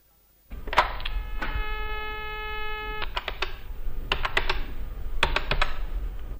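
A telephone being dialed for a call: a steady multi-tone hum, like a dial tone, sounds for a moment while keys are pressed in a few quick bursts of sharp clicks, moderately loud.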